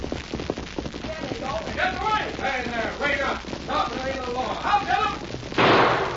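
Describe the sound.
A single sharp gunshot bursts out near the end, after several seconds of excited, overlapping talk from several voices around a wagon and horses.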